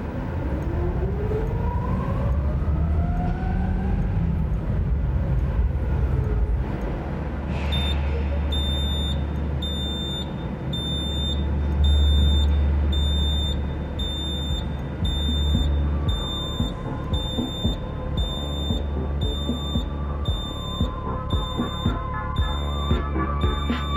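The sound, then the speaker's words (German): A driverless automated forklift drives with a steady low motor rumble. Partway through, a regular pulsed high-pitched warning beep starts and keeps repeating over the drone. “Und hier nochmal ein Nurton von dem Stapler, diesmal ohne Fahrer.”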